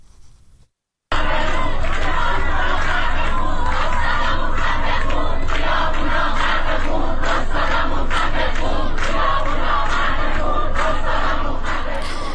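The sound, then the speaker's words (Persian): Protesting university students chant an anti-dictator slogan in unison, a loud, dense wall of massed shouting. It breaks in after about a second of near silence and holds steady to the end. “ویدیوهای منتشر شده از جمله نشان می‌دهد که دانشجویان این دانشگاه با شعار مرگ بر دیکتاتور در روز دوشنبه دست به اعتراض زدند.”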